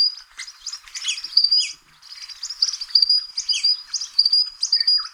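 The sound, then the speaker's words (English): Eastern Spinebill bird call: a rapid stream of thin, high chirps and tweets, many notes close together, with a brief lull partway through before the busy twittering resumes. “Now, the Eastern Spine Bill that we just heard about, this is what the Eastern Spine Bill sounds like.”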